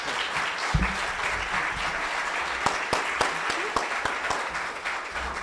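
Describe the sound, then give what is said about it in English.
Extended audience applause, a continuous wash of clapping with some sharper single claps standing out, holding steady to the end. “By the way, I love extended claps. You could have carried out for another minute or two.”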